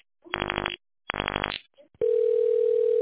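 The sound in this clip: A telephone line tone follows an automated phone menu on a call: two short buzzy bursts come first, then a steady, single-pitched tone starts abruptly and holds unbroken to the end.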